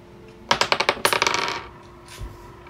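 Dice clatter across a table during a tabletop role-playing game roll to hit: two quick runs of sharp, bright clicks that bounce faster and fade as the dice settle, followed by a faint low knock.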